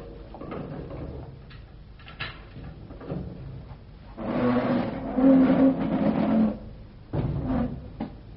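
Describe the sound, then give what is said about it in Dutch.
Creaking gate being opened: a few soft knocks and rustles, then a louder, wavering squeal that lasts about two seconds, followed by a brief further creak. “Ah, daar is de poort al. Wacht, open de poort.”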